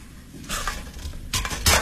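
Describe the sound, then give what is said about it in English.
Cooking pots clink and clatter as they are handled, giving a few bright metallic knocks spaced unevenly over a quiet background. “These are my pots, right? I'll leave you this one. That way you can cook your ramen noodles tonight.”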